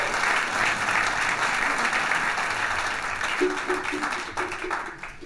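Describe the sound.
Steady audience applause welcomes a singer to the stage at a live music show, a dense wash of many clapping hands that holds throughout and thins slightly toward the end.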